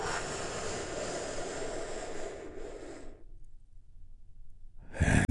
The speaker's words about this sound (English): Take one more big, deep, healing breath with me right now.